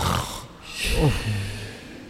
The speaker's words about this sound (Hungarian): és gyerünk horkolni.